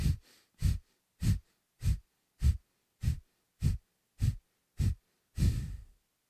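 Deep breaths in a yoga breathing exercise: nine sharp, forceful exhalations at an even, quick pace, ending with one longer, drawn-out breath out.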